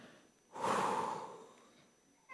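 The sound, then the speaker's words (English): A single long breath drawn in and let out during a guided breathing exercise, soft and unaccompanied, swelling quickly and then fading over about a second, with the start of another breath at the very end. “Just breathe with me right now, in and out.”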